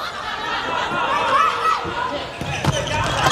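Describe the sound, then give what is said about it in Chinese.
A substitute player's volleyball serve is struck during a match, a brief slap of hand on ball heard under continuous crowd noise and commentary. “杨淑明上来替补发球， 好发球，”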